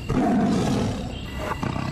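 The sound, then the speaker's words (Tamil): A tiger roars: a loud, rough, continuous growling roar lasting about two seconds, dense and rumbling throughout and easing slightly toward the end. “ஒரு புலின்னு நினைச்சா இப்ப இன்னொன்னு.”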